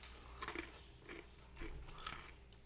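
Quiet crunchy chewing of a snack and nut mix with little pretzels, with a few distinct crisp bites spaced irregularly between softer chewing.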